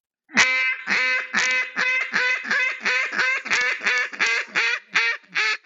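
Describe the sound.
A Bustin' Tail Calls duck call gives a rapid series of many loud, raspy quacks, clipped and nasal, with the last few spaced slightly farther apart.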